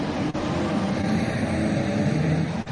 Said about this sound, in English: the green, white and red tricolore of Italy as he waves away the cars on their formation lap